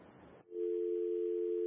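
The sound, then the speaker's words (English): A steady continuous telephone line tone left after a caller's call dropped, rising out of a brief burst of hissy line noise and then holding at an even pitch and level to the end. “I think we've lost the caller. Hello? I think the caller dropped.”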